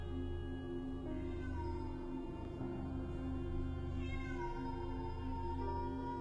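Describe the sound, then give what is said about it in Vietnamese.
A feral cat yowls outside in drawn-out, wailing cries that hold steady and continue throughout. “từ bên ngoài vang lên tiếng kêu thảm thiết của con mèo hoang.”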